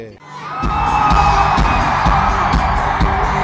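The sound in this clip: A concert crowd roars, shouting and singing along at a pop show, a loud dense wall of voices over a steady thumping beat that continues to the end.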